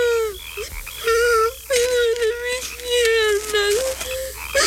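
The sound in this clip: A child cries in pain after breaking both legs in a fall, with several long, high, wailing sobs in drawn-out pulses separated by short catches of breath, loud and alone without other speech.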